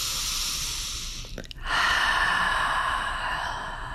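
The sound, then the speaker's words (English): A deep breath drawn before a short spoken prayer: a long, soft, breathy rush that briefly drops away midway, then returns stronger and steadier before easing off at the end. “Leading you into a short prayer, taking a deep breath.”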